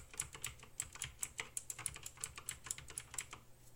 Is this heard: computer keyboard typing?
yes